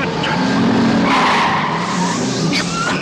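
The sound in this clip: A car overtakes another with screeching tyres in a film scene: a loud, steady engine roar carries a sustained skidding squeal throughout.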